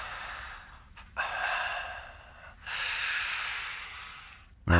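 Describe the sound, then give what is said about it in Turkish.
Breathing from a caller heard over a phone line: faint, airy hissing breaths, two long ones drawn out for over a second each, with no talking. “Nefes sesleri geliyor.”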